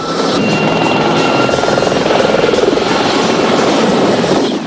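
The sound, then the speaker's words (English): A helicopter chases a motorcycle along a road, its rotor giving a loud, continuous rhythmic thudding with a thin whining engine tone riding on top, steady from start to finish. “The helicopter pursues the chopper as Ben accelerates away.”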